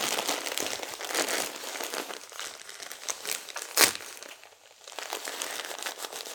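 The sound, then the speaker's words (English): Tape crinkles and rustles as it is torn and pressed on as a bandage, a soft, continuous stream of crackling with one sharp snap near the middle. “Okay, time to get you all taped up, sweetie.”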